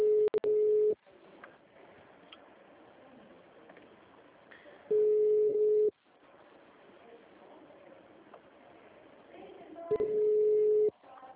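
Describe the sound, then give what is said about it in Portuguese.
Telephone tone heard after a call to a bank branch dropped: three long, steady, loud single-pitched beeps about four seconds apart, with low line noise in the gaps between them. “Caiu a ligação, viu?”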